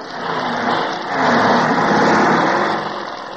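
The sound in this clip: A motorcycle engine starting up, a rough, mid-pitched roar that swells louder after about a second and then holds fairly steady before easing off slightly.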